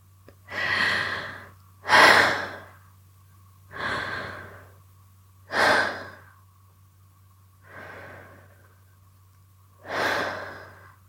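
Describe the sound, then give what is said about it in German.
Slow, deep breathing in through the nose and down into the belly during a guided relaxation exercise: six soft rushing swells spaced by pauses, with a low steady hum beneath and no talk. “Mach deine Augen jetzt zu und atme dreimal ganz tief in deinen Bauch hinein.”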